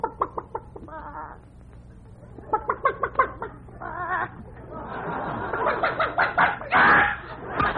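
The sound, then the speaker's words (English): Chickens clucking while being fed corn: many short, choppy clucks in uneven bursts build into denser cackling and a louder squawk near the end. “We got to feed the chickens. Here, chick, chick, chick, chick, chick, chick, chick, chick. Come on, chick, chick. Here's some corn for you.”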